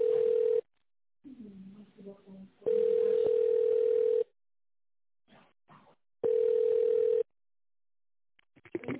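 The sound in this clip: Steady telephone line tone plays while a business call is transferred, in three long, level bursts separated by gaps. Faint talk and small noises fill the pauses between them.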